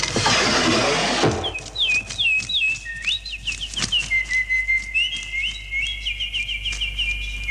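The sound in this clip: Bird whistling sound effect: a short burst of noise, then many quick, high chirping whistles repeating in a steady, lively pattern.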